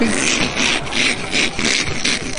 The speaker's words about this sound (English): That guy who, I don't know whether he's grinding his teeth or something. It sounds something like that.